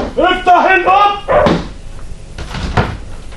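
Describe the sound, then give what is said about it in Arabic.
A door being opened in an Egyptian radio drama: a voice is heard first, then a few dull knocks and clunks follow at moderate loudness. “افتح الباب.”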